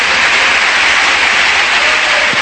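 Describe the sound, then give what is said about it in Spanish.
Applause from a church audience during a sermon: dense, steady clapping that holds at an even, loud level for the whole clip. “No le damos un aplauso al Señor.”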